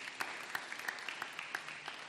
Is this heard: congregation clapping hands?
yes